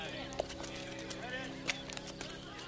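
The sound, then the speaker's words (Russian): Clip-clop of a black horse-drawn carriage pulled by two black horses arriving in a village. Faint, steady hoofbeats run under a voice talking. “В поселок заезжает черная карета, запряженная двумя вороными лошадьми.”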